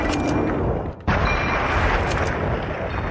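A gunshot from a repeater rifle in a video game battle against centaurs and a brute: a sharp crack ends a brief dip in the dense, continuous roar of combat noise.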